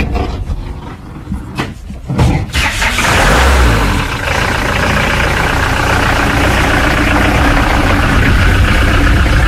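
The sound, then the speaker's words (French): An old gendarmerie van's engine cranks and catches, then settles into a loud, steady idle that drones on alone to the end. “On va à la maison d'un coup de camionnette de gendarmerie, là, vite fait.”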